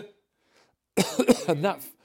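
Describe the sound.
A harsh cough breaks a near silence with a sudden noisy burst, then trails into a few voiced, throaty coughs and sounds over about a second.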